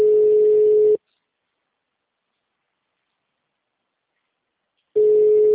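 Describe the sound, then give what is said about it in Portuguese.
Ringback tone on an unanswered telephone call: a steady single-pitched tone lasting about one second, about four seconds of silence, then the tone again. “Não, só chama, vai cair. Até agora chamando.”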